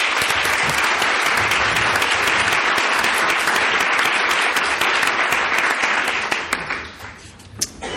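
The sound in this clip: Audience applause welcoming a speaker to the stage: dense, loud, steady clapping that thins and fades over the last second or so.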